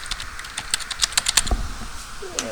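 Someone types an email address on a computer keyboard. Many quick, light keystroke clicks come in uneven bursts, clear and fairly loud.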